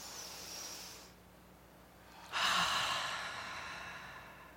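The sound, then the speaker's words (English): Guided deep breathing: a soft breath drawn in, a brief quiet pause, then a longer, louder, breathy release that slowly fades, with no talk. “So let's take a deep breath in and release with a again, a deep breath in.”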